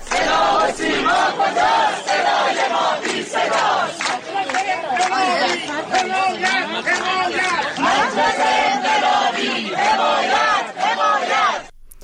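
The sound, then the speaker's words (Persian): Protesting teachers at a street rally in Shiraz form a dense, loud wall of many shouting and chanting voices that runs steadily for the whole stretch, then cuts off abruptly at the end. “این صدای تجمع کنندگان در شیراز است.”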